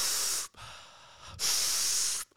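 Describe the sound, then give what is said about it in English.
A man imitates hyperventilation with two forceful, hissing breaths separated by a short quiet gap, and the start of another breath cuts in at the very end. “he taught them this method of breathing, which is basically like this hyperventilating.”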